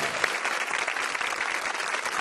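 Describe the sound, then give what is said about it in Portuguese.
An audience applauds the music director of a Brazilian music TV programme with a brief, even burst of many hands clapping at moderate level. “Dé Palmeira, por favor, aplaudam Dé Palmeira.”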